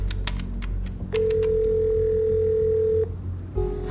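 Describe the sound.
Ringing tone of an outgoing telephone call: a few soft clicks, then a long, steady mid-pitched tone lasting about two seconds, a pause, and the start of a second tone.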